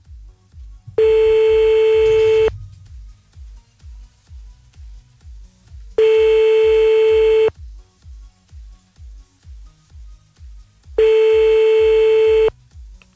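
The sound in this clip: A telephone call is being placed: three loud, steady ringing tones of about one and a half seconds each, separated by long silent gaps, over a faint, rapid and regular low ticking pulse.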